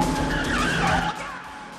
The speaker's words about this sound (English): A black pickup screeches around a corner and heads straight for Cash.